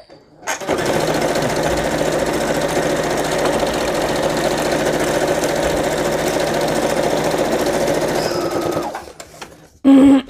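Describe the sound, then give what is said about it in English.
A sewing machine sewing a straight stitch on a binding, a loud, even motor whir with rapid needle chatter that runs steadily for about nine seconds before stopping, followed by a brief click. “I put it in my machine and I just sewed a straight stitch down. So let's do that together here. Here we go. We're sewing a straight stitch.”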